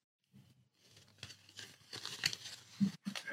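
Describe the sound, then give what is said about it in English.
Faint crinkling and rustling as a folded triangle model is turned inside out, with irregular soft crackles that grow a little louder toward the end. “And the beauty of this is that you can fold this inside out.”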